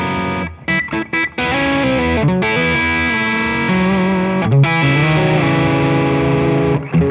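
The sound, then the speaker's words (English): A distorted electric guitar sounds a fretted F sharp against the open E string. A few short choppy strums come first, then a long, thick, ringing drone of the two notes sustains to the end. “working my way up the neck, you could really use an open string in any key and make it sound cool. Here's F sharp with an E.”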